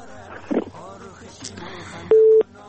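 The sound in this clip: A telephone busy tone sounds after a call drops: one short, loud, steady beep of low-mid pitch, standing out briefly between stretches of talk.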